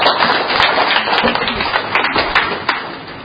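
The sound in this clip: An audience at a religious gathering claps to welcome a woman forward to share her testimony, a dense run of hand claps with a few louder strikes, while a voice speaks over it.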